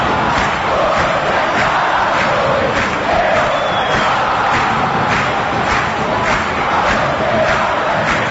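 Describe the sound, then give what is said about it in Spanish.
A football crowd celebrates Cerro Porteño's 1-0 win at the end of the match. The loud, dense roar of many voices is shouting and chanting, with a rhythmic pulse running through it. “Terminó el partido y así celebra el público de San.”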